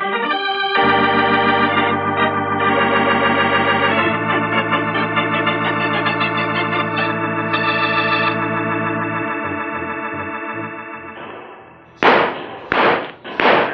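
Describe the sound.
Gunfire in a radio drama: a long stretch of sustained dramatic music fades, then three sharp, loud shots ring out in quick succession.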